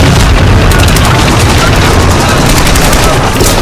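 Explosion and battle din in a wartime audio drama set in a trench under fire, with German infantry falling: a loud, dense, continuous roar with rapid crackling bursts like gunfire throughout.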